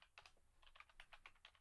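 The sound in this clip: Typing on a computer keyboard: many faint, quick key clicks in an uneven patter of short bursts, with no voices.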